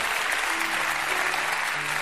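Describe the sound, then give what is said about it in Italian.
Audience applause at a religious Easter feast celebration: dense, even clapping that holds steady at a constant level from start to finish. “Un applauso.”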